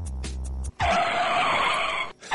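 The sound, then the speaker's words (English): Car brakes screeching as a sound effect: a loud, sustained high squeal lasting about a second and a half, preceded by a few short bursts and cutting off abruptly. “hit the brakes”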